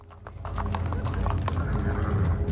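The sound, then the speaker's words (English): Horses' hooves clip-clop on a cobblestone street at night, many quick, irregular hoof strikes overlapping in a steady, fairly loud clatter over a low background rumble. “Beric, Melora, and the bearded man ride horses down a dark cobblestone street”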